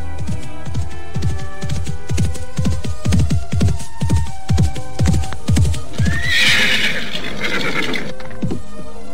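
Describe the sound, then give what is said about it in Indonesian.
A horse's hooves clop in a steady, even rhythm of many strong beats. A loud, high whinny breaks in about two-thirds of the way through, and then the hoofbeats resume alone. “Mengapa Ibu menghentikan lari kuda ini?”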